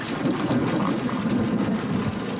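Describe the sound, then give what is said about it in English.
Tornado wind and debris batter a storm chaser's vehicle in Adams City, Iowa, as a loud, continuous rumbling rush of buffeting wind with no distinct separate impacts. “Wind and debris hit a storm chaser's vehicle in Adams City, Iowa.”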